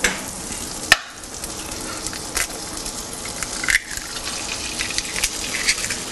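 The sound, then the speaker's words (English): Butter sizzling in a very hot pan: a steady, bright frying hiss throughout, broken by a couple of sharp clicks. “Oh, maybe too hot. Little butter.”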